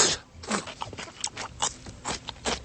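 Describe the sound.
Crunchy chewing of locally grown komatsuna greens: many irregular, crisp bursts and moist crackles follow one another closely, with no talk.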